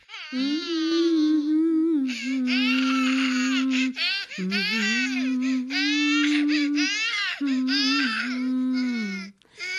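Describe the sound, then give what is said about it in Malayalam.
A baby boy crying: loud, high, strained wailing in four long bursts broken by brief catches of breath, continuous and alone. “മോൻ കരയുന്ന കേൾക്കുന്നില്ല.”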